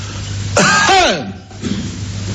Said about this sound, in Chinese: 我这一咳嗽，外边一定有事儿